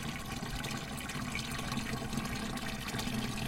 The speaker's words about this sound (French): On va arroser, on prend de l'eau de la tige, récupérer de l'eau de tige.